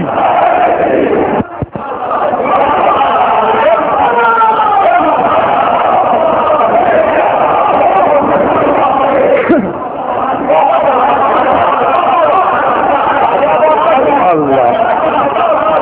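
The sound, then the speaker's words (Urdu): A large crowd chants the religious slogan Naara-e-Haidari. The chanting is loud, dense and sustained throughout, with brief dips in volume. “نعرہ رسالت, دونوں ہاتھ بلند کر کے نعرہ حیدری, حیدری, حیدری.”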